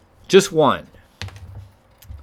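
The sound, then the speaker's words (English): A short burst of keystrokes as a note is typed on a computer keyboard, a few quick clicks after a brief vocal sound at the start. “Type in a note here.”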